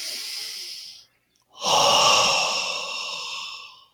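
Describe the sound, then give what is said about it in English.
A deep belly breath: a short airy inhale, a brief pause, then a long, loud, breathy exhale that slowly fades, heard alone. “when that happens, it's usually this deep belly breath comes through, like,”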